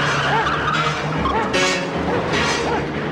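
A taxi cab starts and speeds off with tyres skidding: a loud, continuous engine roar mixed with harsh tyre squeal and skid noise throughout.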